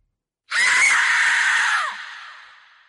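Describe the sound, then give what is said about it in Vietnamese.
A long, harsh, piercing scream of pain from a demon struck by a thrown talisman, loud and breathy. It holds for over a second, then trails off into a fading tail. “Linh phù vừa được đánh đi, lập tức một tiếng hét đau đớn vang lên.”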